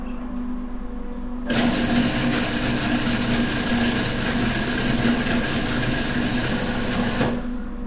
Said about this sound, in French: deuxième passage de la nougatine dans le robot.